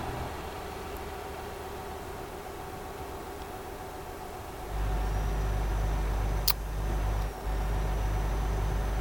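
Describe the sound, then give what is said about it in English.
Steady car road noise with a broad hiss as the car drives into a tunnel; partway through it swells into a louder, deeper droning rumble, with one sharp click later on. “Lucky I always drive with my high beams on. And now here we are, tunnel ambience.”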